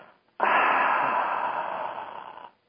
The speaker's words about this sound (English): take a breath in through their nose, take a breath in, 2, 3, 4, and then out through the mouth go